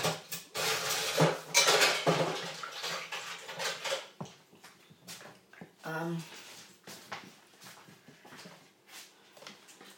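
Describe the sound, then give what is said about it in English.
Bowls being put into a kitchen sink while clearing up: many clattering knocks and clinks of crockery, loudest and densest at first, then sparser and quieter. “Just put this bowl and that in the sink.”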